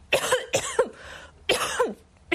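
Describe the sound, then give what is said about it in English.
Coughing from a sick person with a sore throat at a doctor's visit: a few harsh, raspy coughs in short bursts with brief pauses between them, clear and without any talk. “Do you have a cough?”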